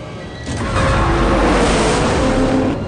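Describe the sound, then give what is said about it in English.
Racing cars roar side by side beside a speeding train in a film chase. A loud, dense, sustained engine rumble surges up after a moment and holds steady. “The train speeds down the track as they race side by side.”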